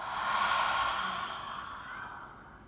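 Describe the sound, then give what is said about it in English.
A slow exhale sighed out through an open mouth during a relaxation breathing exercise: one long, soft, breathy whoosh that swells early, then gradually tapers away over about three seconds, heard alone. “Inhale. And exhale.”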